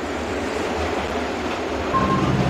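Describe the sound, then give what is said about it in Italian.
Low, steady rumble of a metro train in an underground station beneath Milan's cathedral, a continuous roar that swells slightly toward the end, with a brief thin high tone near the close. “E adesso finiamo sotto il metrò.”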